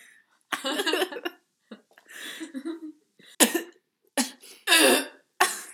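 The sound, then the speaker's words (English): Someone coughs after choking on a macadamia nut, in a series of harsh, uneven bursts with short gaps between them, some raspy and some sharp and throaty. “Ew, I was choking on my macadamia nut.”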